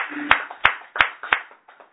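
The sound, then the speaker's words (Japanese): Hand clapping at a religious gathering honouring a man's 71st birthday: four sharp, evenly spaced claps in unison, then a couple of fainter ones trailing off. “今日は三宅礼二さんが満71歳を迎えられましたので盛大な拍手でお礼をして、”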